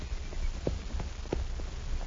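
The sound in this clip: Horse hooves clip-clop as a rider approaches, a run of several regular, muffled thuds spaced evenly over a steady background hiss.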